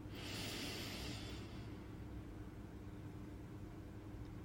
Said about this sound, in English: Exhale. Nice and deep. Inhale.